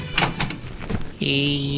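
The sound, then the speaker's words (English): Knocking on a western outlaw's hideout door by a sheriff on the old dusty trail, a few quick raps followed by a steady, sustained tonal sound. “Sheriff Judd Rumpelman, patrolling the old dusty trail, knocks on Blackie Kincaid's hideout, looking for terrorist weapons.”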